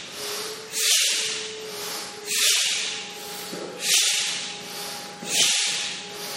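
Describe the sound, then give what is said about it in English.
Energizing breathing exercise: four quick, forceful breaths rush out as loud airy hisses, evenly spaced about one and a half seconds apart, with quiet gaps between them and no talking. “Nice, energizing breath. With me. In, up.”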